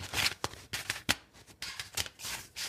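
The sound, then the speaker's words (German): Playing cards being shuffled: a deck riffles in many quick, crisp papery bursts of rustling and flicking. The bursts come irregularly, separated by short pauses, and are fairly faint, with no voices. “Es soll das Mischen von Spielkarten sein.”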